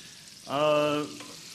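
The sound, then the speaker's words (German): Apple slices fry in a pan in a mix of oil and margarine, making a steady sizzling hiss with a brief, louder tonal burst in the middle. “Wir drehen es erstens mal regelmäßig um. Wir backen das jetzt mal goldgelb raus. Und wir haben eine Mischung aus Öl und Margarine.”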